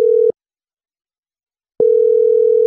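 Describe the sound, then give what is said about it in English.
Telephone ringing tone on an outgoing prank call: a steady mid-pitched tone breaks off, a long silence follows, then the tone resumes and holds to the end. “So right now, we'll just dial the number and... All right. So we're calling him.”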